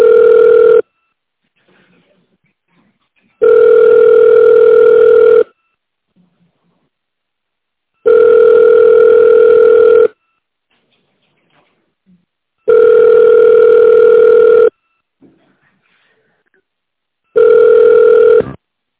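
Telephone ringback tone repeating during a failed call transfer to an office extension: steady tones of even pitch, each about two seconds, separated by longer silent gaps. Five bursts are heard, the first and last cut short. No voices.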